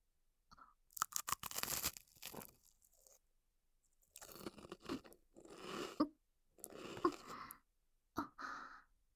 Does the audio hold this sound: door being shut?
no

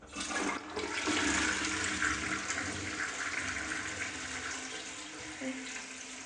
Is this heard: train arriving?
no

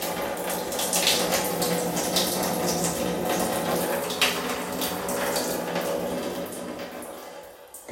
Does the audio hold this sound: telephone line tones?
no

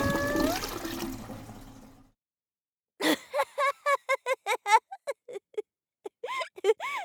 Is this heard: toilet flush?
yes

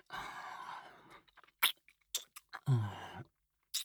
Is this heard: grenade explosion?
no

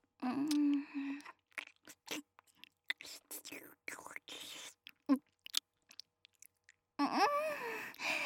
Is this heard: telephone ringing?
no

